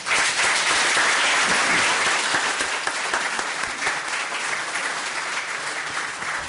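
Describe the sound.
An audience gives sustained applause to welcome a poet, a high-school student from Sarajevo. The clapping is thick and continuous at a steady loudness and eases only slightly toward the end.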